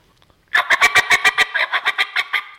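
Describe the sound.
Rapid run of raspy, high-pitched notes blown on a mouth diaphragm game call. They start as crisp, evenly spaced clucks and continue into a slightly blurred, steady chatter, loud and alone.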